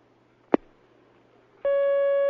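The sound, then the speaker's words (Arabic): Telephone line tone of an incoming call: a single sharp click, a short pause, then a steady, clear electronic tone that starts abruptly and holds unbroken at an even level to the end. “ومعنا مكالمة أخرى الآن”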